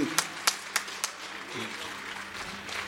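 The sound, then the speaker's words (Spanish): A few sharp, scattered hand claps open an audience's applause for volunteers who run soup kitchens and food programmes. After them the sound drops to quieter, diffuse clapping and a low background murmur. “pido un aplauso para ellos y a la gente que dona su tiempo para brindar eso.”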